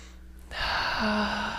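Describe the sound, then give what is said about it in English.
A deep breath drawn in during a guided breathing session, a soft airy inhale that swells after a quiet start and holds steady, with a faint low tone appearing under it. “Okay, so another nice deep breath, please.”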